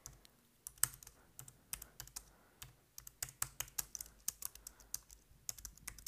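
Typing on a computer keyboard during a medical check-up: a steady run of many quick, crisp keystrokes in uneven bursts, faint and with no voices.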